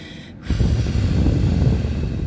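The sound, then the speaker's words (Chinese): A slow, deep breath demonstrated as a breathing exercise: after a short pause, a steady, airy nasal hiss sets in and holds evenly for nearly two seconds, with no talk. “这样呼吸。”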